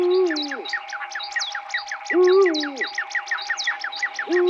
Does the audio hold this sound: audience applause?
no